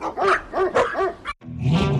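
A dog barks several times in quick succession. After a brief pause it gives a longer, rougher bark.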